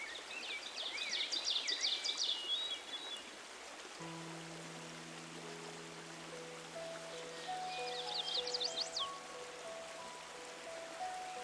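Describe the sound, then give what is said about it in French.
Water flows in a steady, soft rush, with bright bird chirps early on and again near the end. Gentle sustained musical tones enter partway through and continue beneath the stream. “Et là, quelque part, tu entends couler de l'eau. C'est le fleuve de ta vie,”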